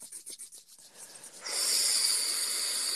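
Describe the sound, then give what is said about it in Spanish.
Palms rubbed together briskly during a guided deep-breathing exercise: a quick run of rhythmic scraping strokes, then a long, steady, breathy hiss that holds evenly to the end. “vamos a frotar enérgicamente las palmas de las manos. Empezá a inhalar y exhalar profundo, inhalás por la nariz, exhalás por la boca, frotá cada vez más presente tus manos.”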